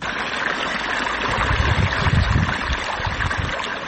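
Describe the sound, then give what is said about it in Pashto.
Irrigation water rushes steadily into newly planted poppy fields in Marja district, Helmand, with a continuous gurgling wash. The flow grows slightly louder and more turbulent midway, then settles. “د کوکنارو تازه کرل سو کښتونو ته اوبه ورکوي”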